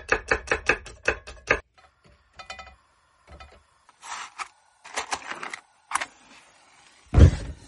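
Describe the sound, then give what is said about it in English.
A knife chops smashed garlic cloves on a board: a quick, even run of sharp, crisp chops at the start, then scattered softer knocks and scrapes with pauses between them. “For the garlic, just smash each clove quite hard. And then just roughly chop.”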